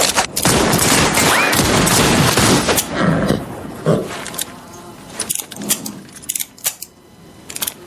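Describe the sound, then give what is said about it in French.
Gunfire erupts in a dense, loud volley of rapid shots for about three seconds. Scattered single shots and sharp cracks follow, thinning out toward the end. “Qu'est-ce qu'on fait? On les flingue.”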